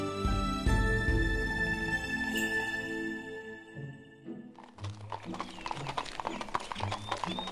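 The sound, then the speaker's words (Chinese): Hooves of a horse pulling a light, well-kept carriage clip-clop in a quick, busy patter after a stretch of music fades out. “七日后，明媚的夏日清晨，我们坐上了他那辆性能良好的马车，朝克孜尔千佛洞出发。”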